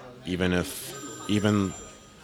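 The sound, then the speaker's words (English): A phone ringtone sounds in two separate buzzing, tonal bursts with a short gap between them. Both bursts are of moderate loudness and stand alone. “my bat phone is going off.”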